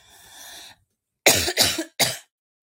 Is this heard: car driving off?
no